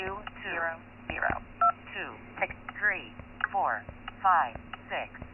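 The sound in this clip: Short touch-tone keypad beeps sound a few times on a ski resort's automated phone line, cutting in over a recorded voice reading the menu. The audio is thin and telephone-like throughout.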